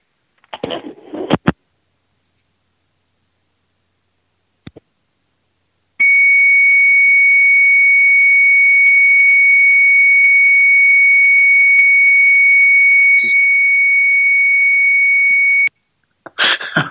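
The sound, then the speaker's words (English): Dial-up connection tone from a 1200 baud Commodore 64 modem: a steady, piercing high whistle holds unchanged for about ten seconds, with brief hissy bursts near its end. A few short noises come before it and right after it stops. “I hung up on that. I got like her 1200 baud Commodore 64 modem was trying to connect with us.”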